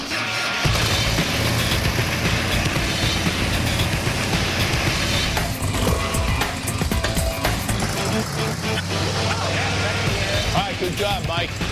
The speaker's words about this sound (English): Hit the start button and give it a little gas.